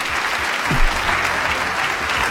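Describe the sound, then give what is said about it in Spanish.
Applause from a group: steady, dense clapping that goes on without a break for a little over two seconds. “Les mando un fuerte aplauso a los editores del Metro. Vamos a dárselos”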